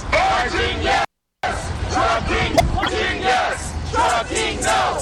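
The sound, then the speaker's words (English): Protesters chanting a slogan in unison in the street in the rain, a loud crowd shouting in a rhythmic, repeated cadence, broken once by a brief moment of silence. “We walked over to the site of the East Siders protests and started chanting.”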